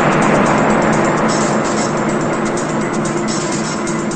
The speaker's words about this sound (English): It's nighttime as an old beat-up blue car drives down a hill toward a city.